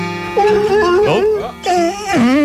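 A radio station's dog howls along to rock music in long, loud, wavering howls that glide up and down in pitch. The howling breaks off briefly near the middle and then starts again.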